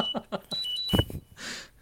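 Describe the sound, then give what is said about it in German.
An alarm clock beeps in a few short, high, bright tones as voices talk over and around it. “Du hast aber einen späten Wecker.”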